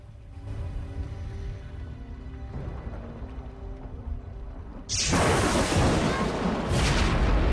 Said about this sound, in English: A sudden burst of lightning strikes his fishing boat and it explodes in a massive ball of flames.